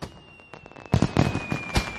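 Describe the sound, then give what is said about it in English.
Fireworks go off in a run of loud pops and crackling bursts after a quieter opening. A faint, steady high tone sounds throughout. “looks up at the fireworks.”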